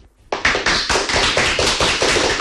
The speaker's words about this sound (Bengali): কিছু শুনি পারু? হ্যাঁ তো, কিছু লোকঙ্কর ঘন ঘন করতাড়ি মাড় শুভুছি